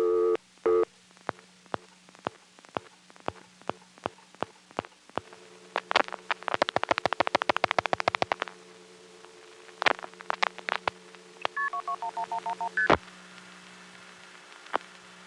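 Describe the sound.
A long-distance telephone call is dialed and ticketed. A low steady tone runs under a series of sharp clicks and rapid click bursts, then short stepped electronic beeps. The whole sequence is faint and intermittent, with gaps between events.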